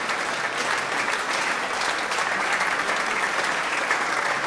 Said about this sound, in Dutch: Maar volgens mij nemen de muzici het applaus in ontvangst met een buiging